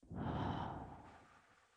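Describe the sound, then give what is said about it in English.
A single deep breath, a soft airy rush that swells quickly and then trails off slowly, faint and heard alone. “Take a deep breath, breathe in, let go,”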